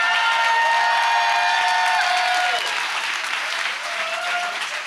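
An audience in a church claps loudly during a sermon. The applause is dense and continuous, with some crowd noise mixed in, and it eases slightly in volume over five seconds.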